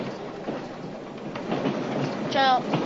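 Moving freight train loaded with supplies, a steady rumbling rattle of wheels clacking over the tracks that grows slightly louder toward the end.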